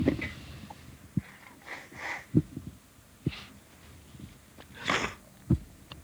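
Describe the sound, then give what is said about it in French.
Nose blowing by someone with a slight cold: faint, scattered snorting and breathy nasal bursts, then one longer, hissing blow, all soft and with no talk. “Bon, excusez-moi, je vais me remoucher parce que j'ai un petit rhume.”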